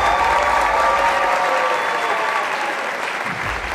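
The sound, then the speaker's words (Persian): A studio audience applauds at a show when asked to clap if they agree. The clapping is steady and loud throughout, easing slightly toward the end. “من خواستم پیشنهاد بدم شما هم یه دفعه لول 4 این دستگاه رو انتخاب کنید، اگر تماشاگرها موافقن دست بزنن.”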